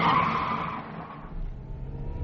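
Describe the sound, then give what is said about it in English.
Car tyres skid as the car swerves wildly around a bend on a rough road. A loud, hissing screech fades over about a second into a lower engine rumble. “She's driving like a maniac. Miss Erica always had pluck. Criminal insanity, more like. She's swerving like an eel.”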